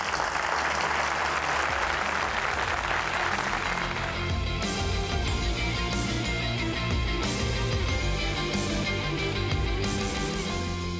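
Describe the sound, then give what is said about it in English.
An audience applauds to welcome the speaker Christine Caine. The dense clapping is strongest for the first four seconds, then thins out as sustained musical tones take over for the rest. “Will you welcome Christine Caine?”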